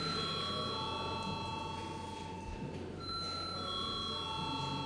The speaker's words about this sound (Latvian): Lūdzu zvanu.